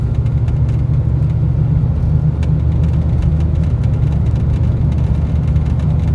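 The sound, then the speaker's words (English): A car is driven fast, giving a loud, steady engine roar and road rumble that stays even throughout without any rise or fade. “There's no need to drive like that.”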